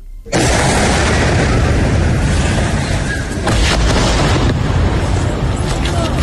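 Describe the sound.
Explosions from bombing in Gaza during a ceasefire break in suddenly and roar as one long, loud, rumbling wall of sound, with a few further blasts surging within it.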